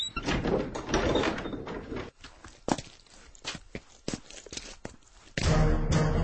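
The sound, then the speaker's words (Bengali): Loud knocking on a door comes as a series of sharp, dry raps in an uneven rhythm, standing out between stretches of denser noise. “দরজায় সজোরে টোকার আওয়াজ শুনে Holmes বললেন, ভেতরে আসুন।”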